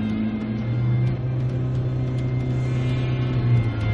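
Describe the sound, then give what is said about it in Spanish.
A car engine drones as the car pulls away at full speed. It makes a steady, low hum with strong, deep harmonics that holds fairly level from start to finish. “El semáforo se pone en verde y con cara de odio, Jaime arranca el coche a toda velocidad.”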